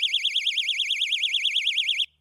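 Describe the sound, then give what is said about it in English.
A 130-decibel personal safety alarm goes off when its pin is pulled, giving a piercing high warbling tone that wavers quickly and steadily for about two seconds, then cuts off abruptly. “When you pull this pin, it activates a 130 decibel alarm that's designed to attract attention and deter attackers.”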